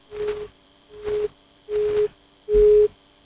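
Busy tone after a phone call is cut off: four evenly spaced beeps, each under half a second long, growing louder with every pulse.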